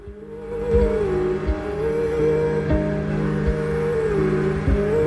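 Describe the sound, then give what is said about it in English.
A snowmobile, or motor sled, speeds across a wide stretch of snow. Its engine holds a steady droning tone that wavers slightly, with a few low thumps under it. “Corey is zipping across a vast expanse of snow on a motor sled.”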